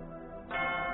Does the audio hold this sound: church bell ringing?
yes